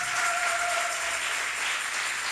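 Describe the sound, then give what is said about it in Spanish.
An audience claps during a church service, a fairly faint, steady patter of many hands that carries on evenly with no clear breaks. “Dele palmas al Señor con todo el corazón.”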